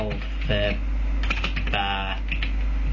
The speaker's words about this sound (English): Yeah, it's fun to listen to me type, kids.